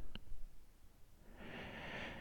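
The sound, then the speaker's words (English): Slow breathing close to the microphone: a faint, airy hiss swells up through the second half and holds steady, after a single soft click near the start. “Just listen to my breath, feel my heartbeat,”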